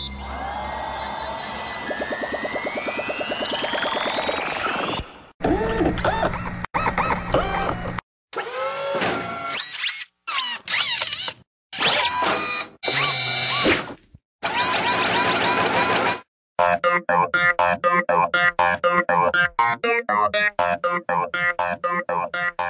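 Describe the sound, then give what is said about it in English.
A machine starts up in a sound effect for a man-versus-machine game segment. Sweeping electronic tones rise at first, then abrupt blocks of loud mechanical noise are split by short gaps before settling into a sustained, busy whirring clatter. “Okay, man versus machine, start up the machine.”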